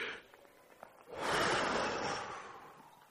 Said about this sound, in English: Just took that deep breath of air.